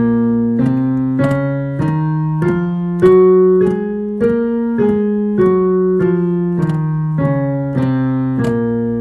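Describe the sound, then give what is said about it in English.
A B flat natural minor scale played on a sustained, harmonically rich instrument, with evenly spaced, firmly attacked notes rising step by step and then falling back down. No voices are heard. “Here is the sound of a B flat natural minor scale.”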